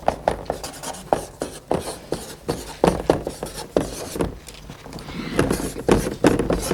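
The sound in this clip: Writing on a board, with many short, scratchy strokes in an irregular rhythm, some sharper taps mixed in, moderately loud throughout.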